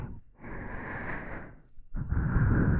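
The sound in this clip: A person breathes slowly and softly, two long, airy breaths separated by a short pause, the second slightly louder, with no talking.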